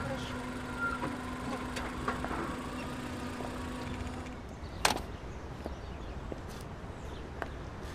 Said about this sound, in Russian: Аня приехала к дому и выходит из машины.